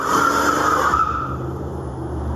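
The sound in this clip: Cars racing and skidding in the open-world racing video game Forza Horizon 5: a steady, loud engine roar with a high tire squeal that fades after about a second and a half.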